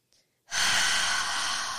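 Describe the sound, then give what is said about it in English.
A single deep breath drawn in during a guided group breathing moment: a loud, steady rush of airy inhalation lasting over a second, preceded by a faint brief sound. “Let's take a deep breath together, because that feels like a lot.”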